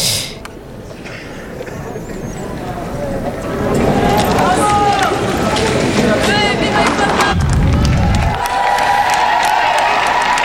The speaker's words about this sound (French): Voilà qui est acclamé.